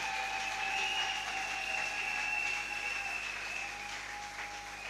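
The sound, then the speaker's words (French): Church audience clapping loudly to acclaim the Lord during a service, a dense, steady roar of hands with a sustained high-pitched tone running through it, easing slightly toward the end. “Est-ce que nous pouvons encore acclamer très fort pour le Seigneur?”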